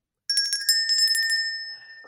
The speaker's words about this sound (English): That is the sound of a new Pimping Bell.